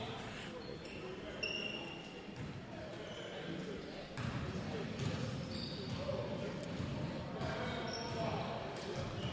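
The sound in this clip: A basketball being dribbled on a court during a game, its bounces blended into a dense, noisy background with people talking throughout.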